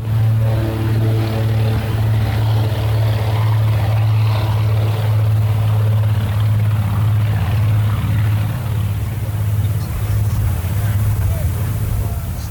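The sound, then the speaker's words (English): A Grumman Mallard aircraft taking off, its propeller engines producing a loud, steady, low droning roar that holds throughout with a strong low hum and broad rushing noise above it. “And we've just got the beautiful sound of the Grumman Mallard taking off.”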